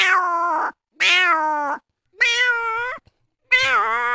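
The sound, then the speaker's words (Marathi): A hungry cat meows four times, each a clear, harmonic, mid-pitched call separated by short silences, loud and alone. “तसंच मांजर एक भुकेला झाल्यावर आपल्या जवळ फिरतं, मग ती मांजर काय कशी काय आवाज देते.”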